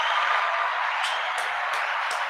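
Applause as a steady, even wash of many hands clapping at once, with no separate claps standing out and no break from start to end.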